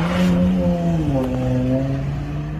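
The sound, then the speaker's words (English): An unmarked Dodge Charger's engine revs with a low, droning tone that dips slightly in pitch and then settles into a steady rumble, fairly loud throughout with no voices. “that looks like the same unmarked Dodge Charger from the last video.”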